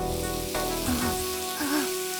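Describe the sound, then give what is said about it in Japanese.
Stir-frying in a frying pan with garlic and butter, a steady, fairly loud sizzling hiss that runs throughout, with a few tonal sounds rising over it. “炒め物でも作っているのか。 この匂いはニンニクとバターなのだ。”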